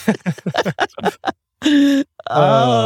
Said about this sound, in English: catch up with his breath real quick while he's groaning right now